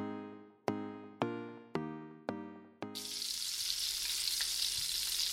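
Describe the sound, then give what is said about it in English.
Bacon fries in a pan. Five ringing knocks come first, then a steady, dense hissing sizzle with faint crackles that continues to the end. “I hear it, friend. You must be cooking up the bacon you got in your latest Moink box.”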